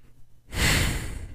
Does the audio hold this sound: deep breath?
yes